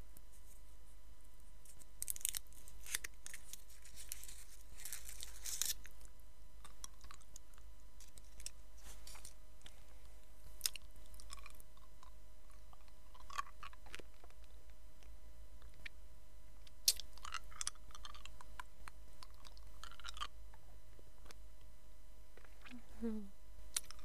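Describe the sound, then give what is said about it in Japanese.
A hard candy is unwrapped and eaten, with crinkling and tearing of the wrapper and sharp little clicks. Many short, quiet bursts come and go over a faint steady hum. “今から飴を食べます。”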